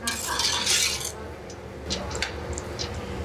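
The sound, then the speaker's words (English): Onions being stirred in olive oil in a pot for a Greek dish: a spoon scrapes and lightly clinks a few times against the pot over a steady background hiss, with no voices. “And we're going to give it a stir so that it's just coated with a bit of the olive oil and the onions.”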